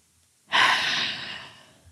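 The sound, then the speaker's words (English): A single deep breath taken during a guided breathing exercise: one long, loud, airy exhale that begins abruptly and slowly fades over about a second, with no talking. “let's just take a couple of breaths together if you'd like to.”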